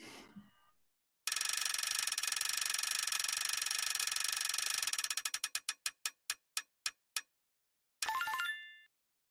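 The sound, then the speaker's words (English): A prize wheel is spun, giving a fast ratcheting stream of clicks that gradually slow and space out until the wheel stops, followed by a brief bright tonal burst. “why don't you spin the wheel for us? Let's see who we got”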